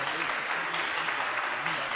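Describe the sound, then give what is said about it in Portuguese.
An audience clapping hands during a church service, a dense, steady and loud patter of applause filling the whole clip, with indistinct voices beneath it. “As palmas são bem alegres.”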